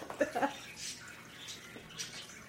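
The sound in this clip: Someone drinks water loudly: a few wet gulping and slurping bursts, with soft throaty sounds near the start, at moderate level and with no talk.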